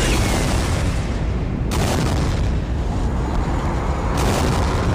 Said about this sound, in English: A rocket. A tiny rocket. Something hurtling towards it. A great ball of fire. They're gonna collide.